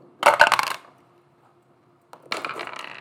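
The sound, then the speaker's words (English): Dice rolled for initiative at a tabletop role-playing game clatter across a table in two bursts of sharp rattling, the first short and loud, then a quiet gap before a second, longer spill of clicks. “And I would like you all to roll initiative while I set this up real quick.”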